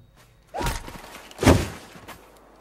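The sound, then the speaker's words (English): A rifle butt strikes a man and knocks him out: two dull, heavy thuds about a second apart, the second louder, over a low background hiss with no voices. “Corey knocks him out with the butt of his rifle.”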